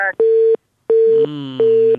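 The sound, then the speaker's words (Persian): Telephone busy tone after a dropped call: three loud, steady beeps of equal pitch, each separated by a short gap. “این دومین تماس است که قطع شد.”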